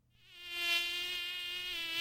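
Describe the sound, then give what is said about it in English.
A mosquito whines with a thin, high, steady buzz. It swells in loudness over the first moment, then holds an even, droning pitch on its own to the end. “there are about 175 different kinds of mosquitoes in the U.S., 50 in North Texas alone, some harmless, some carrying diseases like West Nile”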